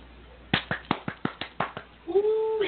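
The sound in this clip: One person claps by hand as an applause sound effect: eight crisp claps in a steady, even rhythm, followed by a voice starting to speak.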